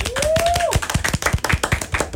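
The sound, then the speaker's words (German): Hands clap quickly and evenly in a lively round of applause. A short rising whistle-like tone sounds at the start, and the crisp claps continue to the end. “Großer Applaus für meine Cousine.”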